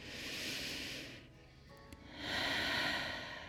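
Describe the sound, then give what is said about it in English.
A deep breath in, heard as a soft, airy rush of breathing that swells, eases off, then swells again, fairly faint overall. “I put my hands on my knees, and I'm going to take a big breath in.”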